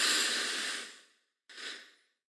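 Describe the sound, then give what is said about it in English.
Deep breathing during a breathing exercise: a long, airy breath that fades out, a short pause, then a second, shorter breath, both soft and breathy with no voices. “Now drop our tongue, round our lips, and exhale. Again, inhale.”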